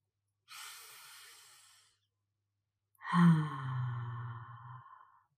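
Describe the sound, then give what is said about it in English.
One deep breath during a guided breathing moment: a soft hissing inhale of over a second, a short pause, then a louder, longer exhale with a voiced, sighing tone. “So let's take a breath together.”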